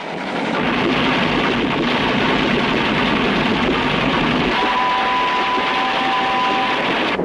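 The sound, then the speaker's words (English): A train hurtling through a snowy forest, a loud, continuous roaring rumble that stays steady throughout, with a faint steady whine joining toward the end. “The train hurtles through a snowy forest. Our view reels back and forth as we watch the tracks beneath us.”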